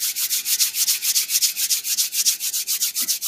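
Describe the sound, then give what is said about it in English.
Hands rub quickly together in many brisk, evenly spaced strokes, each a bright, dry hiss in a steady back-and-forth rhythm, with no other sound. “Bring your hands together and quickly rub them.”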